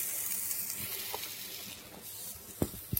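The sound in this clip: Food sizzles on a grill, a faint, steady frying hiss with a few sharp pops and crackles near the end.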